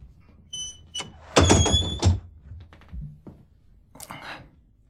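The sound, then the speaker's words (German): A door being closed: a loud thudding burst with a short run of knocks and clatter around it, plus a few quieter bumps before and after, with no talk. “Kommen Sie herein. Und machen Sie die Tür zu.”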